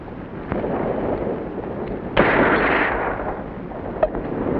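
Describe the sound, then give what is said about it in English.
Gunshots in a film scene where a can is shot out of a man's hand: a few sharp cracks over a steady, noisy background, the loudest in the middle. “Roy Collins shot the can out of his hand”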